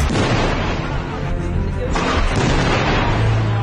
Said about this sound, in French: Toute la nuit, il envoie des grenades à intervalles réguliers.